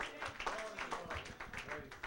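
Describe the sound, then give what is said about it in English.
Church audience clapping hands in praise during a sermon, a quick run of faint, rhythmic claps with voices mixed in. “Can you give the Lord a hand clap of praise.”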